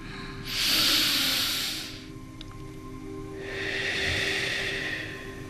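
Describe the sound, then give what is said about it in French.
Two long, airy breaths taken during a guided breathing exercise, each a soft broad hiss lasting over a second, with a quiet pause between them. “On le fait ensemble, donc on inspire.”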